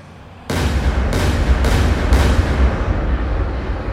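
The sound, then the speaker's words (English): Gunshots: four heavy, booming blasts about half a second apart, each sharp onset blending into a loud, sustained rumble that slowly fades. “There was no reason to waste a relatively decent shot on yammering back and forth.”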